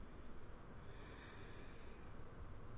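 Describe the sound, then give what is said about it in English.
A deep breath drawn in during a guided affirmation meditation, a faint, airy and steady inhale that holds evenly for a few seconds with no talk over it. “I breathe deeply.”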